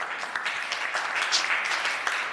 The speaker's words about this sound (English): If we can please give her a round of applause.